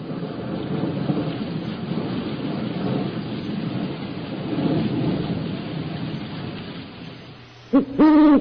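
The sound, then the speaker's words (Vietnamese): Thunder rumbles over steady heavy rain throughout, loud and continuous. Near the end the rain falls quieter and an owl gives a few clear, tonal hoots. “Bên ngoài, tiếng sấm vang rền, trời bắt đầu đổ cơn mưa lớn, tiếng cú nghe thật thê lương.”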